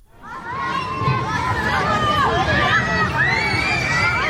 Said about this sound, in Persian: این صدای شادی و بازی بچه‌ها و خانواده‌ها در یکی از پارک‌های تهران است.